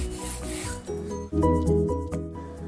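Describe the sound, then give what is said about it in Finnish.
Rasping strokes of a small, thin-bladed coping saw cutting through foam, a continuous scratchy sawing over background music. “Sen ohuella terällä saadaan siistiä sahausjälkeä. Esimerkiksi vaahtomuovin sahaaminen käy kätevästi askartelusahalle.”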